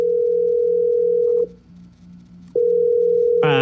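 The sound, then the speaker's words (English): A steady telephone dial tone holds at an even pitch, cuts out for about a second, then returns just as loud and unchanged. “I want you to listen to the dial tone again, and I want you to try and describe to me what is actually happening sound-wise.”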